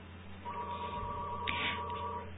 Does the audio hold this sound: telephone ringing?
yes